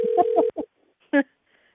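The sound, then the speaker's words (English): A telephone call being placed and sent to voicemail: a steady electronic phone tone holds for about half a second, then a few short separate tonal bursts follow, with silence between them. “It obviously was forwarded to a voicemail, so I'm going to try to call one more time.”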